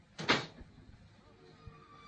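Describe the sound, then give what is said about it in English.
A door closes with one short, fairly loud bump, followed by a few soft low thuds that fade into quiet. “He's gone. The door has closed behind him.”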